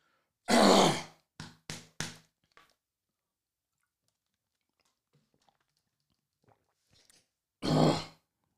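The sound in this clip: Throat clearing: one rough, fairly long burst, then three short, sharp rasps in quick succession, and after a long quiet gap one more loud rasp.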